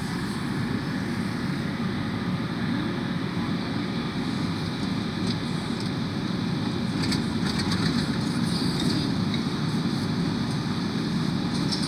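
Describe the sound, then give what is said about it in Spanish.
A subway train ride: a steady, loud rumble and roar that runs unbroken from start to finish, with no talk over it. “estoy en el subte”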